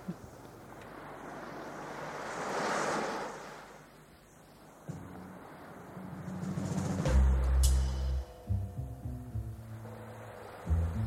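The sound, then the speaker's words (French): Sea waves rush as background noise under a melody: a broad hissing surge swells and fades early on, then sustained musical tones enter and carry on over the continuing surf. “avec le bruit de mer en fond sonore sur cette mélodie”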